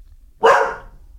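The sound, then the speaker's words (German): A dog gives one short, sharp bark that rises quickly and fades within half a second, loud and alone against a quiet background. “Kannst du bitte nicht bellen? Kannst du bitte nicht knurren?”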